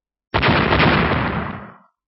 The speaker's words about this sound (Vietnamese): Hai tiếng nổ lớn vang vọng, đột nhiên đỉnh núi rung rinh, bụi mù cuồn cuộn, đất đá văng ra tứ phía.